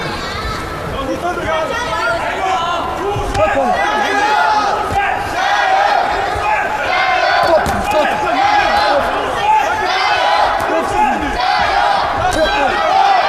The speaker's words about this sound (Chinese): 我们现场有朱帅的粉丝团啊，在为朱帅加油助威。